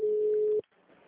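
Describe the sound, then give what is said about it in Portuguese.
A steady, mid-pitched telephone ringback tone on an unanswered call: one long, even beep that cuts off abruptly, leaving faint line hiss. “Não, cara, faz maior tempão, tô ligando.”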